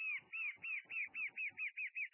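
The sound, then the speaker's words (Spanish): Calls of the batará pardo, a small brownish bird of the forest interior: a rapid, steady series of about ten similar arched, whistled notes, clear and moderately loud with no voices. “Esta es la batará pardo, también dentro del monte vive, ¿no? De color marroncito, una ave que se ve poco, pero se escucha mucho.”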